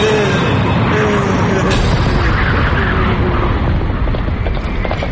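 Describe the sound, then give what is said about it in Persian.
Hoofbeats of a horse as a rider approaches, a dense, loud, continuous clatter blended with heavy rumbling noise throughout. “یا خدا، این اسب سوار کیه داره نزدیک میشه؟”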